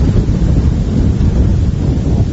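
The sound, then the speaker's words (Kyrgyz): Cold wind blows across a hilltop at the edge of a village, a steady, loud, low rumbling roar that buffets without pause for the whole stretch, with no voices. “Айыл чекесиндеги дөңгө жеткенибизде муздак шамал бетибизди аймалады.”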